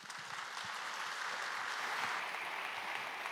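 A church audience gives soft, steady applause to welcome a guest preacher, with even clapping holding at one level throughout.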